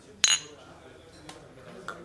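A bright clink of beer glasses meeting in a toast: one sharp strike, followed by a couple of faint taps over a low background murmur.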